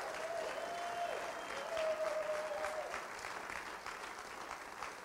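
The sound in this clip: A church audience applauds a visiting group from another church. The clapping is quiet, steady and many-handed, with a slight swell partway through before it gradually thins out.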